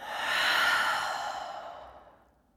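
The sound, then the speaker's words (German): A long, breathy exhale letting all the air out during a relaxation breathing exercise. It swells quickly, then slowly fades away over a couple of seconds, with nothing else heard. “Und erstmal lässt du die ganze Luft einfach raus.”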